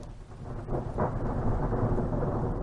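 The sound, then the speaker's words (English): Thunder from a thunderstorm at Big Bend National Park, a deep rolling rumble that swells and holds, with a steady hiss of rain underneath. “You can listen to a coyote giving chase, thunderstorm at Big Bend,”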